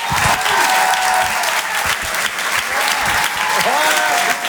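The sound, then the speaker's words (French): An audience applauds to welcome a comedian onto the stage: loud, dense clapping that runs the whole time, with voices and a few shouts rising out of the crowd near the end. “Je vous demande de faire un maximum de bruit pour lui aussi également.”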